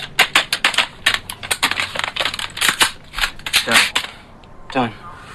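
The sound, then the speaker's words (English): Rifles being reassembled: many sharp metallic clicks, snaps and rattles follow one another quickly in uneven bursts, with brief pauses between the clusters. “They reassemble the guns.”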